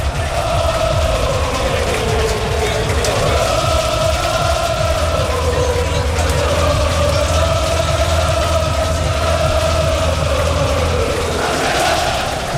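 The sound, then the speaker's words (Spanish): A sold-out football stadium crowd of about 15,000 minutes before kickoff: a loud, unbroken mass of voices chanting and singing together, the sustained tune wavering gently throughout. “está lleno a reventar, todas las entradas vendidas, 15.000 espectadores en el Skyfy Castalia, que vamos a escucharlo porque suena así a pocos minutos de que empiece el partido.”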